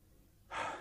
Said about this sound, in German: Da muss ich schnaufen zuerst.